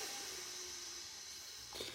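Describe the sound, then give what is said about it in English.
A faint, steady breath drawn in through the nose during a guided breathing exercise, heard as a soft, even airy hiss that holds without a break. “Inhale through your nose for 4 seconds. So Rico, if you want to do it with me or whoever else on the call, inhale for 4 seconds.”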